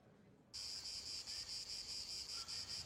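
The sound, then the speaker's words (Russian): Cicadas sing in a village setting: a high, buzzing drone that starts abruptly after a moment of near silence, then pulses in many even, rapid bursts, fairly faint overall. “Цикады поют.”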